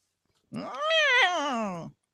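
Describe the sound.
A loud cat yowl, heard alone: one long, drawn-out caterwaul that climbs in pitch and then slides back down before cutting off.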